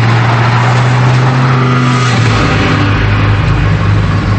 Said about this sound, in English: He speeds down the highway.